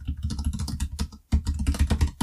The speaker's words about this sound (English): I'll start typing that.